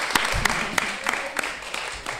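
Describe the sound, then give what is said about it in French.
Hand claps from an audience applauding a singer: a sparse series of distinct single claps in a fairly even rhythm, moderately loud over a quiet background. “On peut l'applaudir.”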